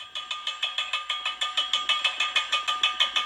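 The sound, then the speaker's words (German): Natural gas flowing through rusty production pipes at a decades-old gas field makes a rattling like empty cans: many evenly spaced, metallic clicking pulses repeating at a quick, steady mechanical rhythm. “Was sich anhört wie das Klappern von leeren Dosen, kommt mutmaßlich vom Gas. Das strömt offensichtlich noch immer durch die rostigen Förderrohre,”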